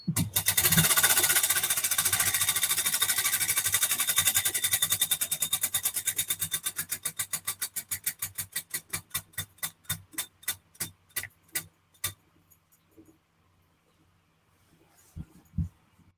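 A prize wheel spinning during a giveaway countdown gives rapid, loud clicks that gradually space out and slow to a stop. A few faint sounds follow after the wheel stops.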